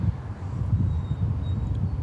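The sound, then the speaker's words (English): Wind blows against a microphone during a phone-style conversation, producing a continuous low, rumbling buffet that swells and dips slightly. No one speaks during it. “Sorry, I'm trying to cover the wind.”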